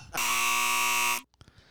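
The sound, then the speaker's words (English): A loud end-of-segment buzzer sounds once as a single harsh, steady-pitched tone that lasts about a second and then cuts off, followed by a few faint scattered noises. “That's the sound of the end of that segment. That's the sound of victory.”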